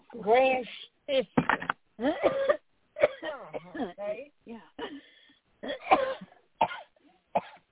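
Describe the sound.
Coughing from a tickle in the throat: a few rough, hoarse coughs and throat-clearing bursts, broken up by short vocal sounds and moderately loud throughout.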